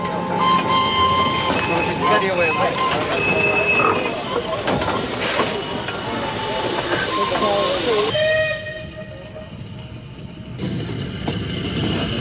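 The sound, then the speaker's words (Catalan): A departing train on the Eindhoven–Rotterdam line gives a continuous rumbling clatter with whistle tones sounding over it, and the noise grows quieter toward the end. “el seu amo es va veure obligat a agafar el tren d'Eindhoven que surt en direcció a Rotterdam.”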